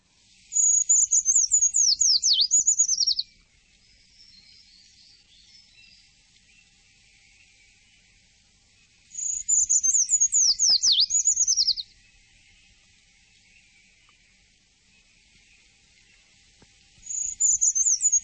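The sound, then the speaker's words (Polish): A treecreeper sings high, thin, rapid trills that slide downward, delivered in three separate phrases with long quiet gaps between them, the last phrase cut short at the end. “myślę, że gdzieś tego pełzacza znalazła, zobaczyła i za chwilę będziemy mogli go usłyszeć.”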